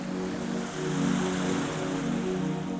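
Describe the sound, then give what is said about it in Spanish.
Rough, stormy sea waves churn in a continuous rushing roar that surges and eases gently, with a low droning tone running steadily underneath. “comenzó a nadar con él a través de las aguas embravecidas.”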